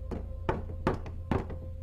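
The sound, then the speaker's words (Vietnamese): Rattling knocks on a wall: a few sharp, dry taps in an uneven rhythm over a steady low electrical hum. “Hiền rùng mình khi nghe tiếng gõ lạch cạch ở ngay bên vách.”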